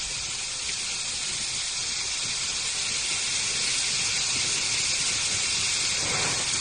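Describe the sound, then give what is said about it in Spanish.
A torrential cloudburst pours down north of Lorca, Murcia, near La Paca and Zarcilla de Ramos, making a dense, constant, loud hiss of heavy rain with no breaks. “Así sonaba la tromba sobre las 4 de la tarde.”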